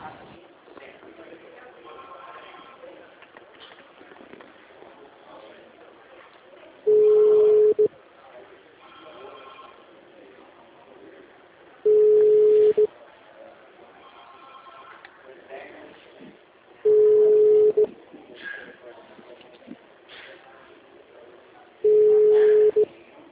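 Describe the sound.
An unanswered telephone call ringing: four steady ringback tones repeat about every five seconds over a faint, murky background hiss.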